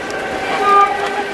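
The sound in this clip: A passing train on the Trans-Siberian railway near a snowy village, a loud, steady rumble with a brief, higher tonal note like a horn midway.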